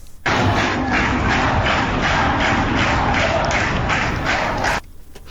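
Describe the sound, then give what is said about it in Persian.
Students clapping together on the Technical University campus in the early morning, a steady, dense wash of crowd applause that starts abruptly, holds level for about four and a half seconds, then drops away. “در اون لحظه، در اول صبح، چون تعداد نیروهای امنیتی زیاد بود، تصاویری که از شعار نمیدن، اما کنار هم جمع شدند و دست میزنند.”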